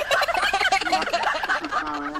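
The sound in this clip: Turkeys gobbling in a loud, dense run of rapid warbling calls that fill the whole clip with little pause.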